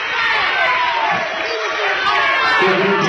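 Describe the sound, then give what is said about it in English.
A vocal basketball game crowd cheers and shouts in a continuous, loud roar, with whoops breaking out as voices talk over the din. “Montgomery County's got a nice crowd here. Yeah, they do. And they're very vocal.”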